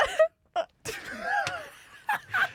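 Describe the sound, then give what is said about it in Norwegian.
Mock crying by a voice imitating sobbing: a few broken, moaning wails with wavering pitch, separated by short silences. “La meg bare gråte litt.”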